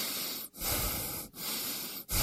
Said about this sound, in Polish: Proszę oddychać.